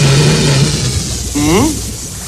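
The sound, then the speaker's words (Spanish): A homemade air box instrument, a rubber band set vibrating by blown air, gives a low, steady buzzing drone, then a brief upward-sliding pitched tone, loud against a voice speaking. “Si aflojo la goma, bajan las vibraciones y es más bajo el tono. Y si lo quieren más intenso o más suave, solo apliquen más o menos aire en él.”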